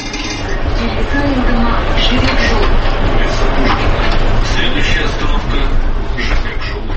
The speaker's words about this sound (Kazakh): Трамвай шамдары Алматы көшелеріндегі қараңғылықты қақ жарып келеді.